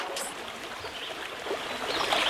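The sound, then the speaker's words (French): River water flows in a continuous, broad rushing wash with a slightly brighter babble near the end, steady and moderately faint with no voices. “Ah, qu'est-ce qu'on est tranquille au bord de la rivière.”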